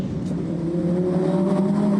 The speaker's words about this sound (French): et puis ce son du V10 là. À chaque fois que je passe un rapport supérieur ou inférieur,